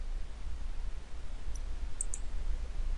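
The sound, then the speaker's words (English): Faint, crisp clicks of a computer mouse opening a new query in SQL Server Management Studio, about three quick clicks over a quiet hiss. “click on the new query or press Ctrl N in SSMS.”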